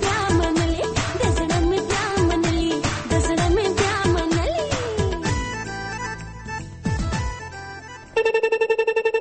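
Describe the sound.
Telephone ringing on a radio call-in line as a caller is connected to an FM and medium-wave station. A busy electronic tune with many quick falling glides leads into a loud, steady buzzing ring tone at the end.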